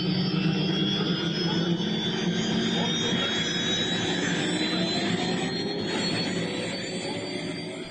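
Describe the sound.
An airplane engine roars at takeoff, a loud continuous rush with whining tones layered on top, holding steady before easing slightly toward the end.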